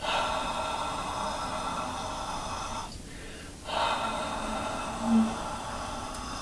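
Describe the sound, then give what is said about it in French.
Yuki breathing exercise with focused exhalations: long, continuous airy breaths, broken by one short pause midway, with a faint brief sound near the end. “Dans le Yuki, on concentre sur l'expiration. L'inspiration est normale, on ne pense pas. Mais c'est sûr. Alors je commence.”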